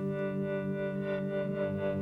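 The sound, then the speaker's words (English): A single guitar chord, captured, frozen and sustained, then processed into a steady drone: a dense, unbroken hum of stacked tones that holds an even loudness throughout, with a faint shimmering wobble and no attack or decay. “what you're hearing right now is just one chord that I played on the guitar that was captured, frozen, and sustained, and then that went through some other processing. So there's sort of a drone, one sound that was originally from the guitar”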